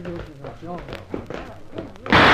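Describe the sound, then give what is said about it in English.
Voices talk in a radio drama, then a single loud, sharp gunshot cracks out at the very end. “What's that, Carson? Where did that shot...”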